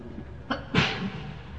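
One sharp sneeze, preceded by a brief short burst, breaks into a quiet background.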